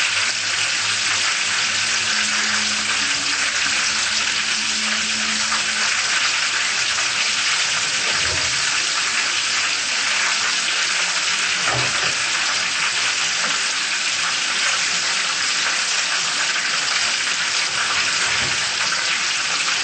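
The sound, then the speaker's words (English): Food frying in hot oil after the heat is turned lower, left until golden: a loud, dense, steady sizzle and crackle that runs unbroken throughout, with no voices. “We let them fry until they became golden. Then it will be ready.”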